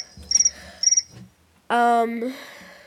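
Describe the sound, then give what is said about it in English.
A cricket chirps in two short, high-pitched trilled bursts, then a louder, lower tonal sound takes over. “Cricket is right here.”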